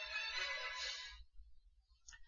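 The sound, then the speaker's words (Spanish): A faint iOS 13 reminder notification tone, custom music chosen by the user, plays as a melodic chime with stacked harmonics, then a brief second blip. “Vemos que ha sonado la música que yo le he puesto para los recordatorios.”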